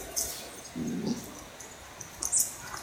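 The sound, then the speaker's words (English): A hound mother growls at a puppy that is trying to take her bone. The growl is brief, low and fairly quiet, and a few faint, short, higher sounds come before and after it. “This is a hound mom correcting a puppy for trying to take her bone.”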